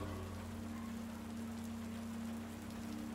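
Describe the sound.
Rain falls steadily as a soft, continuous hiss with no breaks, faint overall, with a low steady hum beneath it.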